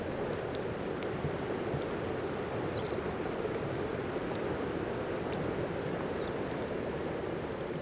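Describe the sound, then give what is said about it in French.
Fizzing, crackling bubbles like champagne in a lake: a dense, steady hiss of countless tiny pops that holds at an even level throughout, with no voices. “comme un son de bulles de champagne.”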